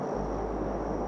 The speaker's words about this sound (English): That's the sound of the SnowEx plane that flew out of Grand Mesa, Colorado in 2016,